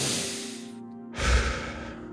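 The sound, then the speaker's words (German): Deep breathing during a guided relaxation: two long, airy breath sounds, in through the nose and out through the mouth, separated by a short pause, over a soft sustained tone. “Und jetzt nimm einmal ein paar ganz tiefe, bewusste Atemzüge. Durch die Nase ein, durch den Mund aus.”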